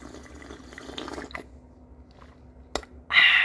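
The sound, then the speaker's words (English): Hot water is poured into cups for morning tea: a few faint knocks and clinks over quiet background, then a short, bright splashing pour at the very end. “where we grab our cups, pour hot water in it, grab two tea bags, a little honey for sweetness”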